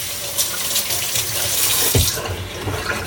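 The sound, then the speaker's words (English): Water runs from a kitchen tap as hands are washed after rubbing oil onto a turkey breast: a steady, loud splashing hiss with a few heavier splashes partway through, and no voices. “I'm gonna throw the bag away, then I'm gonna wash my hands again.”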